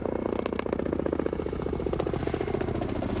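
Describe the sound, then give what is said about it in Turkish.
Helicopter rotors chop steadily over a wildfire that soldiers and helicopters are fighting in Serbia, a continuous dense pulsing drone that holds its level throughout, with no voices. “Sırbistan'ın Sumarak bölgesindeki yangının söndürülmesine de askerler ve helikopterler destek veriyor.”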